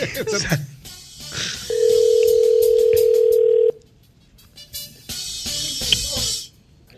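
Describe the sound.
A telephone call rings out from a radio show as one long, steady ring tone lasting about two seconds, loud and even, with people talking before and after it.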